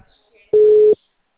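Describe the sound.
A telephone busy signal sounds when calling a mobile number: one short, steady, mid-pitched beep of under half a second, loud and clear.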